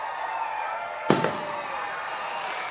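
Fireworks go off at a ballpark: one sharp, booming bang quickly followed by a smaller crack, standing out above a steady, fairly quiet background noise.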